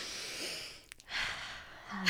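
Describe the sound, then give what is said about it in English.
A group draws a deep breath together: a long, airy inhale, a short gap, then a long, breathy exhale, both moderately loud with no talk over them. “should we all take a deep breath right now?”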